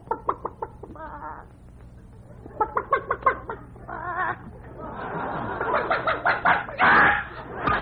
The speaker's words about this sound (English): We got to feed the chickens.